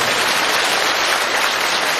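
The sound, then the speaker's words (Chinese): Applause from a huge audience at a mass assembly, a dense, hiss-like roar of countless hands clapping that stays smooth and even throughout, with no voices heard. “我听起来像10个人鼓掌，所以万人大会。”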